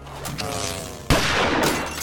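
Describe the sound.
A single loud shotgun blast from skeet shooting at a clay target cuts in sharply after softer, tonal sound, then leaves a dense, noisy tail that rings on to the end.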